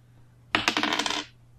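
Dice rolled during a tabletop role-playing game: a quick burst of rapid, bright clattering clicks lasting under a second, fairly loud, then stopping and dying away.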